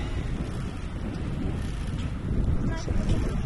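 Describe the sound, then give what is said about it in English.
Wind blowing past a microphone outdoors while passing through a residential subdivision, a steady low rumbling roar that grows louder toward the end. “And more wind.”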